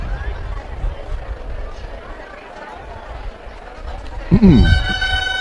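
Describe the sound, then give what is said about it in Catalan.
Gralles, Catalan double-reed instruments, start playing at a castells human tower event, with shrill, sustained reedy tones that enter loudly near the end after a stretch of murmuring background noise. “Sonen gralles, per tant bordegassos amunt.”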